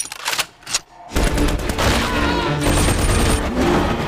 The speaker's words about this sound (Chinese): 架好重机枪。